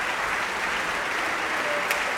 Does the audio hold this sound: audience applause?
yes